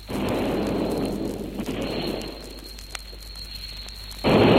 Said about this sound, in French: Artillerie de l'armée révolutionnaire. C'est la fin.